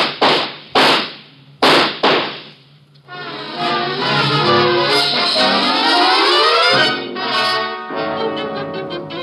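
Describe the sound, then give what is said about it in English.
Gunshots in a dramatic shootout near a car, a few sharp loud bangs with quick decays, followed by a sustained loud tonal sound. “Watch out, he has a gun! Get down! Shoot him”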